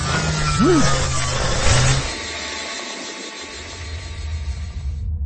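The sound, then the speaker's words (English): Vehicle motors engaging in a sci-fi docking bay scene: a broad rushing roar with a short swooping whine near the start, then a lower sustained drone that cuts off abruptly. “Autonav route. Engage motors. Top speed.”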